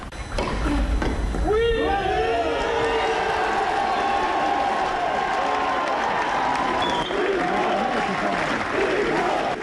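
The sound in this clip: A sparse but noisy tennis crowd at a Grand Slam men's match cheers and applauds a French player's five-set win over Stan Wawrinka. Dense, steady clapping runs throughout, with shouts and whoops rising early on.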